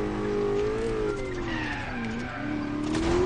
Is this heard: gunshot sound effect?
no